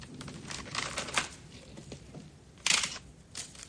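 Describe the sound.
A plastic bag crinkles as passports and a nickel revolver are slipped inside: a run of crisp rustles and light clicks, with a louder crackle near the end.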